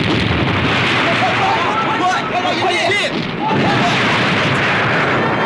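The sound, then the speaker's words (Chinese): Artillery shelling aimed toward a mountain: a dense, loud, continuous roar of booming gunfire with no clear breaks, with voices faintly audible through the din in the middle. “向山上炮击，嗨，开炮！”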